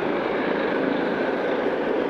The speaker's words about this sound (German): Ein Hubschrauber, und zwar mutmaßlich ein startender solcher.